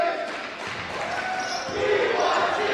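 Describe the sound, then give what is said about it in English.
A basketball being dribbled on a court during a high school boys' game gives a few faint, dull bounces beneath a steady wash of crowd noise. “crossover dribble. Driving in the paint.”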